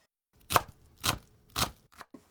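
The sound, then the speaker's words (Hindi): A knife chops onion finely into small 3-millimetre squares on a board, giving a few crisp, separate thuds: three strong strikes at an even pace, then two lighter taps, with no talking. “सबसे पहले प्याज को महीन काटना है, इसके लिए उसे 3 मिलीमीटर के छोटे छोटे चौकोर टुकड़ों में काट लीजिए।”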